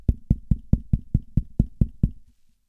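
Knocking on a refrigerator door: ten steady, hollow thuds in an even rhythm, each ringing out briefly before the next, then stopping.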